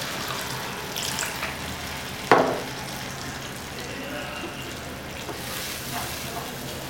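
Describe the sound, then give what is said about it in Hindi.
About a cup of water goes into fried chicken kofta masala, giving a steady hissing sizzle throughout and one sharp burst partway through. “ये chicken kofta का मसाले हमारा fry हो चुका है। अब हम इसमें डालेंगे ये पानी, एक कप के आसपास पानी इसके अंदर,”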